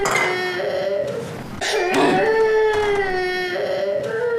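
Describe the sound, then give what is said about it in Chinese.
A baby cries in drawn-out, wavering wails, breaking off briefly before a louder, sustained cry resumes. “你可别哭了”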